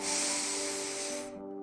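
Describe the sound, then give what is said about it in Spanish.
A deep exhale during a guided breathing exercise: a steady, airy hiss of breath lasting a little over a second before it fades. “Sostén el aire un segundo. Y suelta el aire.”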